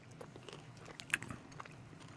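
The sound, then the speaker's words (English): Biting and chewing on a Lunchables Treatza dessert that tastes like chocolate pudding: a soft, faint run of chewing noises with one sharper crunchy bite standing out midway, no voices. “Should we try this Treatza? Yeah, we should try this Treatza. Let's eat it.”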